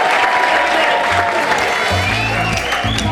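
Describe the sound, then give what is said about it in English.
Audience applause welcomes a comedy act onto the stage in Edinburgh: dense, steady clapping and crowd noise that holds loud through the whole stretch, with some voices mixed in. “Ladies and gentlemen, please give a massive Edinburgh welcome for Johnny and the Baptists!”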